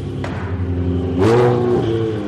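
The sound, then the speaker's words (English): Race car engine on a racing circuit in Tuscany during a training day, a steady harmonic drone that swells louder and rougher around the middle, then holds at a loud level. “I'm at the Mugello racing track in Tuscany, just outside Florence. It's training day for a tall pilot with a blonde braid.”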